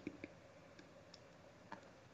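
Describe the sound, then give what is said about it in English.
Computer mouse clicks, faint and sparse: a few sharp little ticks, two close together at the start and another later, over quiet background hiss with no talk. “Yeah, I gotta click on his filmography.”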